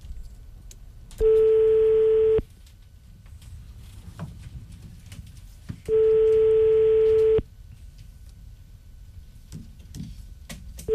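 Telephone ringback tone heard while a call is being placed: two steady, loud, even-pitched beeps, each lasting over a second, separated by a pause of several seconds of quiet background with faint ticks.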